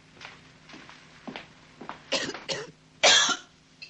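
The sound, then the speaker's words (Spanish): A sick man coughing while sitting on a cot in a filthy hovel: a series of many harsh, raspy coughs in uneven bursts, the later ones louder and rougher, with no talk. “Enfermo, Rizzo tose sentado en el catre de la pocilga.”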